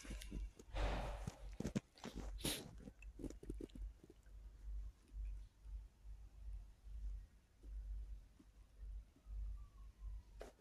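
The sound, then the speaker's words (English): Footsteps tread along a wilderness trail in a steady run of soft, low thuds. A few sharper scuffs and clatters come near the start, and the whole passage stays faint. “I'll walk the wilderness trail again.”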